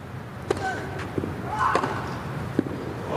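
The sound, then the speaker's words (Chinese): A tennis racket strikes the ball on a backhand return of serve in a Grand Slam men's singles match, a few sharp, hollow pocks spaced over a low background murmur. “这球反拍接发球，斯维列夫接进来了，反拍直线的一记 return ace。”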